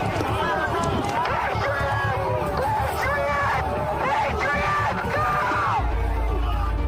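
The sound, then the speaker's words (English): A crowd shouts and yells at a police line on the US Capitol grounds during the January 6 events: many overlapping raised voices with sharp whoops and bellows, loud and continuous throughout. “while members in the crowd shout at him.”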